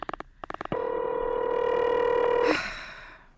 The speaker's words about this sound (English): Oh, do you have to dial? Can't you ring them directly?